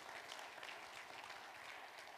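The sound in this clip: A church audience applauds to welcome guests, a dense, steady wash of many hands clapping that stays even in loudness throughout without breaking off.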